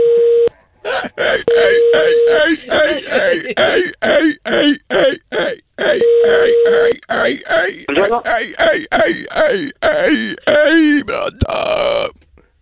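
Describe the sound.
A man imitates a seal during a phone call with many rhythmic, throaty barks, grunts and moaning wails in quick repeated bursts. A steady tone sounds at a few points between them.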